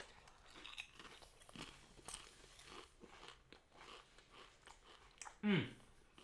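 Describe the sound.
Faint crunching and chewing on a snack from a bag, with soft bites scattered throughout and one louder, sharper crunch near the end; voices are faintly present.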